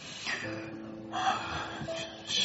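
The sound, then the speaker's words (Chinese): A man draws a deep, audible breath in a tense moment, a few soft breathy rushes of air over a faint, steady background tone, with no talk. “他深呼吸了一下”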